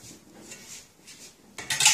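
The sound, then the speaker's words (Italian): A 200-gram hamburger goes into a hot frying pan: soft clinks of the pan first, then a sudden loud hissing burst near the end. “non faccio altro che prendere i miei hamburger, metterli sulla padella e cuocerli.”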